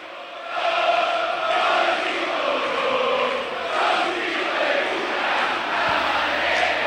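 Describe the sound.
Lanús football fans fill the stadium with a sustained crowd roar and chanting before a match, holding steady at a loud level with a brief dip partway through.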